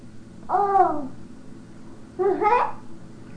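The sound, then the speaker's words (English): A baby babbles in two short vocal bursts separated by a pause, high-pitched and warbling over a steady low background hum. “You know that you're babbling? Do you know that you're babbling?”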